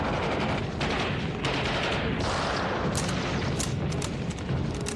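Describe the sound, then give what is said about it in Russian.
Gunfire in a battle against advancing tanks and infantry, with a bolt-action rifle worked for aimed shots; a loud, dense, continuous crackle of shots and booms with no quiet gaps. “Методично передергивая затвор винтовки, Звягинцев ведет прицельный огонь.”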